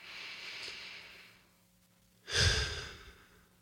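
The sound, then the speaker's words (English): A deep breath, taken slowly: a long, soft, airy inhale, a quiet pause, then a fuller, louder exhale with a breathy rush. There is no talk. “I just want to take a big breath for him.”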